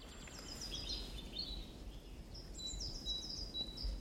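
Great tit and other birds singing in a forest: faint, thin, high chirps and short trills scattered over a steady low background hiss.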